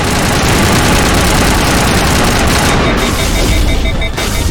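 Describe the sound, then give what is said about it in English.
Gunfire from the Lancer rifle with the Overkill ability active blasts in a video game. It is a loud, continuous stream of rapid shots over a heavy, engine-like low rumble, with no pause throughout. “Open up the Lancer. That's our rifle, and then we're gonna activate Overkill. And then we're just gonna tear into it as much as we can.”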